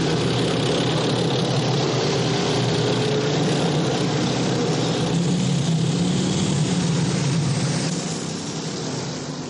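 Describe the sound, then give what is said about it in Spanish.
A car engine rumbles as the vehicle drives off through a World War II fortress, weaving among tanks and other military vehicles. The roar is loud, steady and broad, with a low hum that eases slightly at the end. “arranca y se interna en la fortaleza esquivando tanques y otros vehículos”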